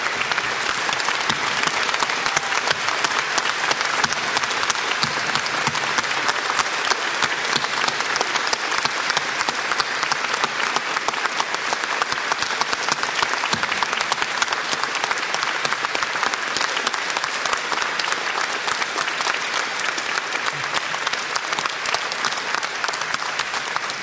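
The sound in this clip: Warm audience applause welcomes a bishop and his wife back home at an Iowa gathering. The steady, dense clapping holds at an even, full level throughout, with no pause.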